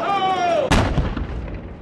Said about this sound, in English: In the parking lot of the Anaheim Angels Stadium, the detonations began.